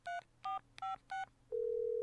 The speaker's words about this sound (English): If you know your party's extension, you may dial it at any time. Oh, geez, I have this extension. I hope this still works.